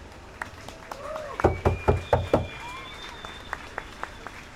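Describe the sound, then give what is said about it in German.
Brief scattered applause, a few distinct claps in a short burst, greets a speaker being introduced at a public gathering. “Ein kleiner Applaus.”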